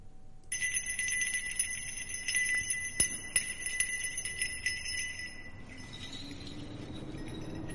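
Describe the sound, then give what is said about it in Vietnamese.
Hand bell rung in a folk ritual by a woman seated cross-legged on a mat before a chicken coop. Bright, continuous jingling rings with many quick strikes, then fades near the end. “Tiếng chuông leng ca leng keng vang lên.”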